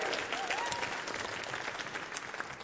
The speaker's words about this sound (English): Give it up, everybody, for Come Undone.